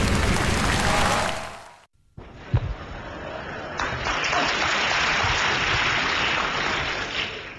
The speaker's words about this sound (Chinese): 首先感谢朋友们稀稀拉拉的掌声